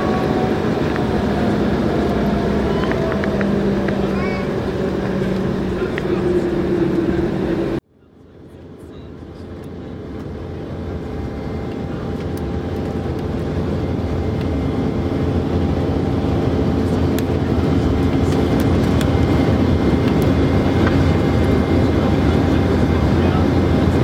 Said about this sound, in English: Cabin crew, please be seated for takeoff.